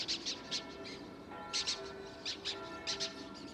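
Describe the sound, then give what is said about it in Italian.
A three-week-old young falcon gives faint, thin, high chirping calls in short bursts of two or three, repeated several times over a low steady hum. “Questo giovane falco ha 3 settimane.”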